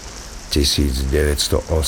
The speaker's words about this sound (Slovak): Prší. Každý deň prší.